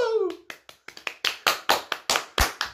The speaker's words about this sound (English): There we go. That is the most quiet applause I've ever seen.